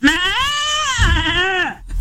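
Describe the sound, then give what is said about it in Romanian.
A man's voice imitates a goat's bleat: one long, loud, quavering nasal cry lasting nearly two seconds, wavering steadily in pitch, with no other talk around it, before cutting off into a brief low rumble. “Și zic, mă, era capră, era cald. Zice, nu era o capră, era colegul meu.”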